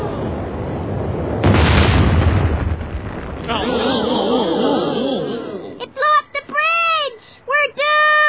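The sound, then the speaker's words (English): A rocket is fired with a loud, broad roaring blast that swells and holds for about two seconds. A rougher rumbling follows, then voices talk as the noise fades. “Dad, they're firing the rocket!”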